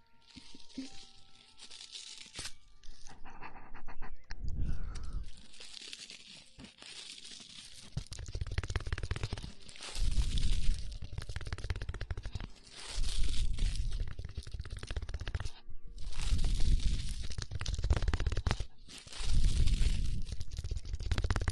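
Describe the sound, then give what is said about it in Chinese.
Tin foil crumpled and crinkled in many dense, crackling bursts, with brief pauses between handfuls, heard alone without voices. “接下来做一个锡纸的声音。做一个锡纸的声音。”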